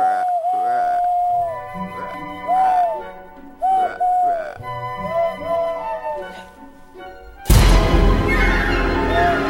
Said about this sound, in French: c'était la chouette qu'on avait dit. C'est pourtant simple, tu prends tes mains comme ça et tu siffles sur les pouces.